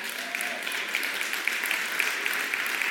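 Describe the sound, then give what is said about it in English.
An audience applauds with steady, dense clapping at moderate loudness. The crowd noise stays even and unbroken for the whole stretch, with faint individual claps standing out now and then. “why is it only people over 50 who are clapping right now?”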